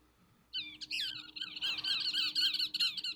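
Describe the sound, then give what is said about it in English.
Parrots squeaking in a garden: after a short quiet start, a run of shrill, rapid, squeaky calls in quick repeating bursts, fairly faint, with no voices. “What's that in the garden? Squeaky. Parrots.”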